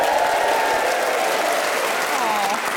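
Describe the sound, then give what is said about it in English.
A studio audience at a free radio recording applauds loudly, with continuous clapping that stays at a fairly even level for the whole stretch. “So let me just say it is a pleasure to be joined by a wonderful studio audience. Give it up for yourselves!”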